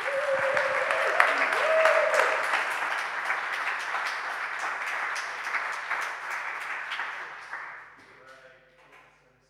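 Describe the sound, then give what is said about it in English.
Thick, sustained applause from a church audience welcoming a preacher, loud and steady for most of the stretch before fading away near the end. “So why don't we welcome the PK up, give him a massive round of applause.”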